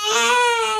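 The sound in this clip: A newborn baby cries in one brief, steady, high-pitched wail lasting under a second, heard alone.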